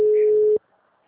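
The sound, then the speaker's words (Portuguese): A telephone busy signal: one steady, mid-pitched tone that holds for just over half a second, then cuts off to near silence. “Tô ligando. O número está ocupado.”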